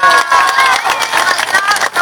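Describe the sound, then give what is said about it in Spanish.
Loud crowd cheering and clapping rises as an audience salutes the speaker's parents during a dedication. The dense, continuous roar carries high whoops and voices throughout and dips briefly near the end. “Un beso y un aplauso para ellos,”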